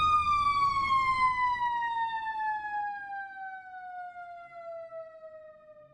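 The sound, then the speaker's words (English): A fire truck siren passes by as one long, steady wail. Its pitch slides steadily downward across the whole clip, and it fades gradually from loud to somewhat softer. “That was a fire truck going by.”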